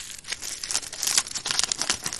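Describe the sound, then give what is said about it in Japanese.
Aluminium foil crumpled by hand into a ball gives a crisp, dense crinkling that runs steadily for about two seconds, with many sharp crackles overlapping and no voices. “次にアルミホイルを一度くしゃくしゃにして丸め、”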